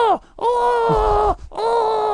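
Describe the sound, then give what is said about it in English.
A voice imitates the pained groan of a wrestler with broken ribs, producing a few drawn-out, open-mouthed vocal moans with short breathy gaps between them. “when you really hurt your ribs and you break your ribs, it's a weird sensation where you can't close your mouth and you're still trying to catch your breath. So you can't grit your teeth. And it does produce this weird”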